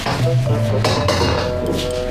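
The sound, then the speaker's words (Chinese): Pots and dishes clatter during home cooking in a kitchen, with a couple of sharp knocks over a loud, steady background. “做饭呢”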